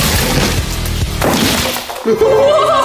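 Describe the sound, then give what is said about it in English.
A bowling ball smashing into an iPhone makes a loud, dense crashing and breaking clatter that continues throughout, with a sharp fresh impact near the end. “This is a bowling ball, so let's bowl it. but it actually worked. It wasn't a clean hit, so let's do it one more time. Give me this iPhone!”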